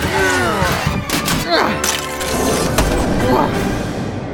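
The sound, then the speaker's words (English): Loud booming crash as a frozen-shut drawer is forced open, a dense burst of thuds and clatter mixed with quick sweeping whooshes, sustained and heavy throughout. “they're all frozen shut in this drawer. Maybe if we work together, we could get it open. All right, are you ready? One, two, three. Boom!”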